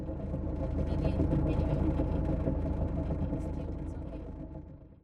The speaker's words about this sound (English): Once you've let out enough chain, a burst of throttle in reverse sets the anchor.